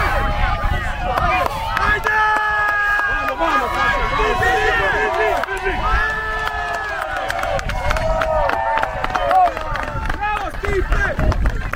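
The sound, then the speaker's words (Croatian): Spectators cheering and shouting encouragement at the finale of a scything competition, with grass mown by hand scythes, the loud, overlapping calls and voices running continuously at a high level throughout. “A završnica uzbudljiva, uz budnu pažnju i navijanje publike.”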